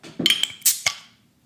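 A beer bottle being opened with a bottle opener: a quick run of sharp metallic clicks and clinks, one with a bright ringing tone, ending in a brief louder snap that fades out, with no talking.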